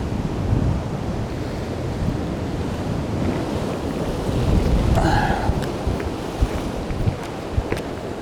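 Sea waves wash against the shore at sunrise as the tide turns, a continuous broad roar of surf with wind buffeting the microphone, swelling slightly around the middle, with a few sharp knocks near the end.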